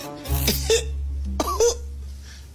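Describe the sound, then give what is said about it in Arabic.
A man coughing on request: two short, sharp bursts roughly a second apart. A steady low hum runs underneath throughout, and no one speaks. “معلش يا حبيبي كحه تاني.”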